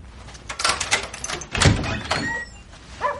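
Door being opened for the police: a few rattling knocks and clicks, then a heavy thump midway and further handling sounds, fairly faint overall.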